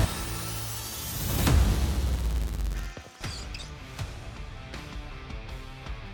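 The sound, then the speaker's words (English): Fight sound effects from the Mortal Kombat 1 Peacemaker gameplay trailer: a deep rumbling swell builds into a heavy smashing impact, cuts out briefly, then gives way to a few sharp whacking hits over a low, lingering bed. “we're watching the official Peacemaker gameplay trailer for Mortal Kombat 1.”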